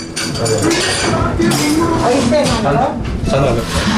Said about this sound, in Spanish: Un descafeinado crema de máquina. Cafetería en Vitoria.